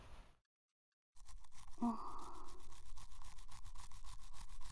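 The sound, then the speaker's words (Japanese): A toothbrush scrubs another person's teeth in quick, regular back-and-forth strokes. After a short silence the strokes run on as a faint, even, bristly rasp, with no talk. “人の歯を磨くなど、初めての経験だが、なかなかうまくいってるんじゃないか？”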